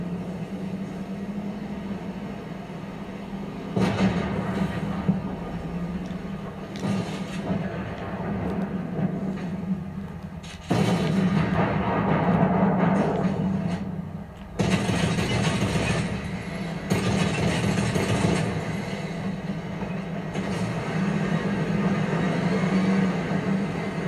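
A tank driven in the video game Fortnite gives a steady, droning engine rumble with a low hum underneath. It swells into louder, rougher stretches several times before settling back.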